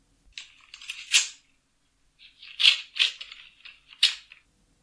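An envelope being opened during a football awards announcement, crisp papery rustling and tearing in a few bursts, with no talk.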